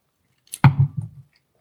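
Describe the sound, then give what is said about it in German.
Someone takes a sip of beer, producing a few short, wet slurping and swallowing sounds in quick succession, quiet and alone against silence. “ich nehme noch mal einen Schluck, bevor ich das jetzt hier final einlogge”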